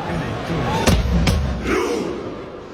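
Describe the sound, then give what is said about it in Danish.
Football fans perform a Viking rowing chant, a crowd murmur broken by two heavy, unison thumps in quick succession, then settling back into a steady crowd roar. “Tusindvis af fans, der sidder helt stille, mens de lader som om, de ror deres vikingeskib, og så eksploderer det hele i jubel der til sidst. Det lyder sådan her.”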